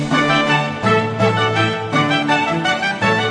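Full orchestral music plays loud and steady, with dense sustained harmonies and a few gentle swells, and no voices.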